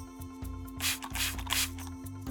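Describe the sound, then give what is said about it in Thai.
Alcohol disinfectant spray is sprayed for a customer at a shop, giving a few short, soft hissing bursts over a steady tonal background. “เดี๋ยวจะฉีดแอลกอฮอล์ฆ่าเชื้อให้ลูกค้าก่อน”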